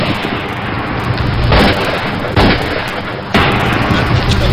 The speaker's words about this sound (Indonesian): Beberapa hari kemudian, ia ditembak dengan peluru emas yang khusus disediakan melawan kesaktiannya.